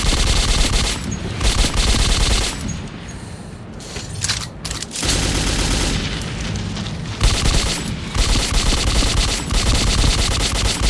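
Loud, sustained automatic gunfire aimed at monsters. Dense rapid-fire bursts run almost throughout, broken by brief pauses, with no talking.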